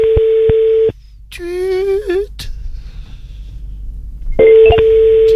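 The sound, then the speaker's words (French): A steady electronic notification tone signals that a microphone has been muted. It sounds twice, with a short warbling electronic chirp between the two tones and a quiet hiss behind. “Oh, une petite notification. Non, c'est quand tu coupes le micro, ça.”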